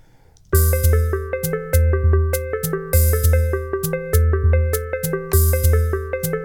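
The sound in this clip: A synthesizer plays a repeating note sequence built around an A minor seventh chord. Bright, sustained tones ring over a lower bass line that steps between pitches in a steady looping pattern, with no talking.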